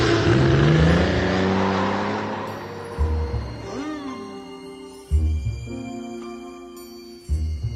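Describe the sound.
A car pulls away after dropping someone off, its engine and road noise loud at first and fading steadily over the first few seconds.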